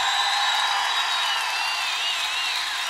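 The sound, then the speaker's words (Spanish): Applause from a church audience: dense, continuous clapping that holds a steady, fairly loud level for the whole stretch without pausing, blending into a bright, unbroken wash of hand claps. “Somos más que vencedores. Levante ese aplauso fuerte.”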